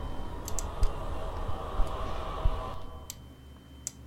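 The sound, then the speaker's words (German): A computer mouse clicks a handful of times while settings are adjusted in a horror game. The clicks are faint, sharp and unevenly spaced over a low, steady hum. “Und ich will mal hier das Ding hier rechts oben drücken. Ja, da will ich draufklicken.”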